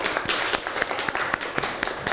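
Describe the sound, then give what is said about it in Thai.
Classmates in an art lesson give a quick round of applause for a fellow student's answer. The group clapping is uneven and crisp, with sharp hand claps standing out against a softer patter. “พื้นที่ว่างปรบมือให้เพื่อนหน่อย”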